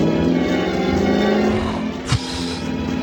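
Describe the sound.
A car accelerates, its engine a loud, continuous drone with a steady low hum, broken by a brief thump partway through.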